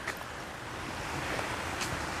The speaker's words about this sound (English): It's kind of nice walking along the creek.